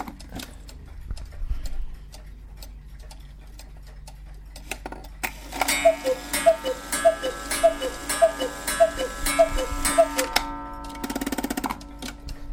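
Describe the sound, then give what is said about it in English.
Ticking of a very large cuckoo clock: a steady run of loud, evenly spaced mechanical ticks fills the second half, after a quieter start. “This has got to be the biggest cuckoo clock I think I've ever seen. You can tell by that tick that it's huge.”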